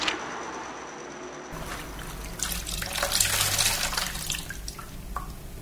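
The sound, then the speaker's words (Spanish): Water trickling and dripping as a wet floor cloth is wrung out, a soft, continuous splashy patter that swells slightly midway, with no talk. “Mientras estrujo este trapo de piso”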